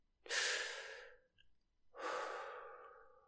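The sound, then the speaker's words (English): Slow, deep breathing with inhales and exhales through pursed lips. Two long, breathy airy rushes are separated by a short pause, each swelling quickly and then tapering off gradually. No voices are present. “this time the breaths are longer and even calmer than before. Deep, intense inhales followed by conscious exhales through pursed lips.”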